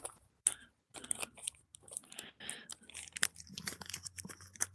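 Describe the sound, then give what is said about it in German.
A paper till receipt folded and wrapped around a roll, giving a run of quiet, crisp crinkles and crunches broken by brief pauses. “Ich falte jetzt gerade den Brief zusammen. Also den Zettel. Den Kassenbon. Und wickel ihn jetzt um die normale Rolle hier.”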